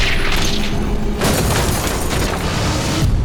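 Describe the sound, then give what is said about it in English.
A carriage bursting into flames in a video game, heard as a loud, dense roar of fire with a sudden, sharper burst partway through, sustained for the whole clip with no voices. “Driver, your carriage is on fire!”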